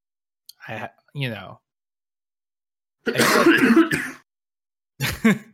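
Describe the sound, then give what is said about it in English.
Coughs and throat-clearing come in a few separate bursts with silence between them. A longer, rough, noisy burst sits in the middle. “I thought you were trying to say something by coughing.”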